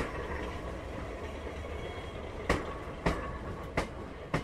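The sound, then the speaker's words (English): Inside a British Pullman train carriage, a low continuous rumble of the moving train is punctuated by four sharp rail clacks spaced roughly evenly apart. “it's a carriage that's been here in the rake for many, many years and can tell many, many stories if walls could speak.”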